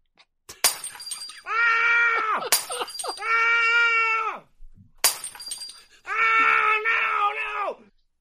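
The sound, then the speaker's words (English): Footsteps crunch on shattered glass in sharp, brittle bursts. Three separate crunches are each followed by a long, loud, strained scream. “This is the sound of walking on broken glass.”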